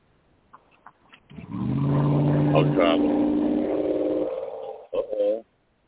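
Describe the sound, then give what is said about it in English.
A car drives down the street with a steady humming engine tone that shifts pitch in a few steps as it passes. Voices are briefly heard near the end. “Look at that car driving down the street.”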